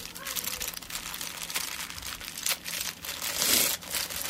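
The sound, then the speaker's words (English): A taped package holding cable is torn open: crinkling and scraping of packaging, with a louder tearing rip near the end. “Let's see if we can get this open. It's taped.”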